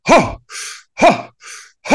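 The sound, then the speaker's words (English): Deep diaphragmatic breathing done hard, with three loud, forceful breaths alternating with two softer, airy breaths in a steady rhythm, with no talking. “The other thing I do at the same time is I do deep diaphragmic breathing. I take 30 breaths.”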